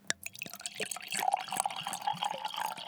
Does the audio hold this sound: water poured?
yes